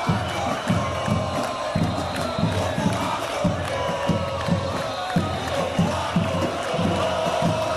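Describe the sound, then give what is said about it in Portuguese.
A massive crowd roars at a 2013 street protest in Brazil where more than 100,000 people filled the streets, with dense, continuous shouting and cheering and no break or lull. “Foram milhares de pessoas, mais de 100 mil pessoas nas ruas ontem, numa manifestação gigantesca.”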